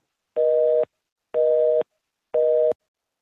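Telephone busy signal from a place with only one phone line: three steady, mid-pitched tone bursts of equal length, each about half a second, spaced evenly with silence between them.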